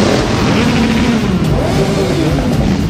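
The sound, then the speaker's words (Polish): Motorcycles ride in an independence parade through the streets of Wrocław, making a loud, continuous engine drone. Several overlapping engine tones shift gradually in pitch, with no pauses. “Ulicami Wrocławia przejechała motoparada niepodległości. Barwna kawalkada motocyklistów zrobiła na mieszkańcach wrażenie.”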